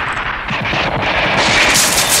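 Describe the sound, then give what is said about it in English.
Sustained gunfire: return fire from a gate tearing into a room during a battle involving a tank and soldiers. Dense, rapid reports run on without a break, loud and steady throughout. “The return fire from the gate has perforated the room, and Sean and Moreland are both killed.”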